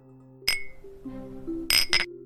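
Wine glasses clink together in a toast, with a single bright ring followed later by two quick clinks close together, over a low steady hum.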